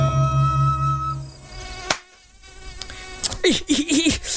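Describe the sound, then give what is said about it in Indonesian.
Mosquito buzzing: a thin, high whine drones on and off, cut by a few sharp clicks, then comes back in uneven fluttering bursts. “Nyamuk ngedengung mulu dari tadi. Kagak capek apa ya?”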